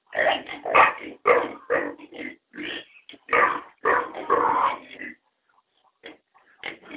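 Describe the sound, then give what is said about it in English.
Grunts and squeals from piglets in a dark pen said to hold nine young pigs, a rapid run of many short, loud bursts followed by a few quieter, sparser noises. “There's a couple piglets. I think they said there's 9 piglets in this pen.”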